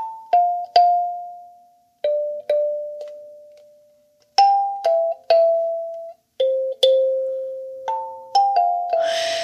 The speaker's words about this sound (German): Das, liebe Freunde der Einschlafmusikinstrumente, ist eine Kalimba.